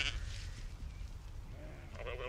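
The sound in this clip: Sheep bleating on a golf course: a short, wavering bleat rises near the end of the brief clip over a steady low rumble of background noise.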